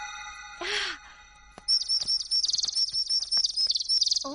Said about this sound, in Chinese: 哦，哎，小鸟。你们也想吃吗？